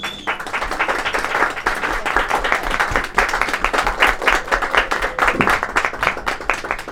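Audience applause for a poetry ensemble's stage performance, dense, steady clapping that stays loud and even from start to finish with no voices over it.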